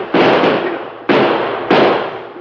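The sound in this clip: Gunshots fired at a fleeing horseback rider ring out as three loud, sharp reports, each followed by a noisy, decaying roar, spaced roughly half a second to a second apart.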